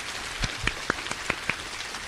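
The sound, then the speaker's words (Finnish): Applause during a church service, a soft continuous patter of clapping with a handful of louder, distinct single claps standing out at fairly regular intervals. “Kunnan aplodit hänelle, hän elää ja on täällä.”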